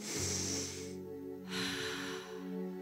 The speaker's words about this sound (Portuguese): Respira bem fundo.